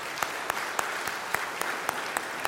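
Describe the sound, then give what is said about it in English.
Applause from a church gathering welcoming members of a ministry network, a dense, steady patter of clapping with several sharper claps standing out, no voices over it. “Let's give them a hand,”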